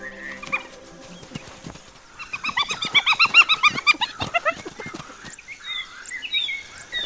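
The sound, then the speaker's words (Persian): Hyenas with their cubs among ebony trees: a dense burst of squealing, grunting calls in the middle, with softer intermittent calls before and after. “در میان درختان آبنوس، کفتارها، تاندلا و تنتا توله هایشان را نزدیک خود نگه می دارند.”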